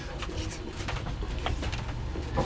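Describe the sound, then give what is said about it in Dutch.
Bird-like chirps from a pedestrian crossing signal at traffic lights, the audible signal for visually impaired people. A few short, high, repeated chirps sit over a steady wash of street noise. “aan de verkeerslichten. En er zijn twee soorten vogeltjes. De vogeltjes van links.”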